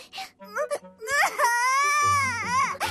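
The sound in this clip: A baby cries in a few short whimpers, then lets out a long, loud wail that wavers up and down in pitch.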